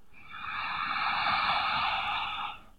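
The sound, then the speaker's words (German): One long, deep breath during a guided relaxation exercise, a soft, airy rush that swells gently, holds steady for over two seconds and then fades out, heard alone without any talk. “Tiefes Einatmen und Ausatmen.”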